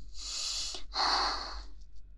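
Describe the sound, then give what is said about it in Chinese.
Heavy breathing in two airy, hissing breaths split by a short pause, the second slightly stronger, with no voices. “我的呼吸怎么了？我的呼吸有什么问题吗？”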